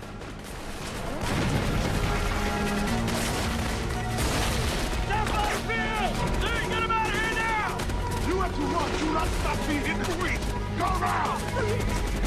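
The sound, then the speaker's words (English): Gunfire and grenade blasts in a battle as Navy SEALs fight rebel soldiers: dense, continuous crackling shots and booms fill the whole stretch at a loud, sustained level, with voices heard over the din. “The SEALs lob grenades towards the enemy line.”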